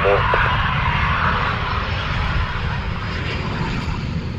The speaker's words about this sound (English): There's uh, a aircraft on approach, short.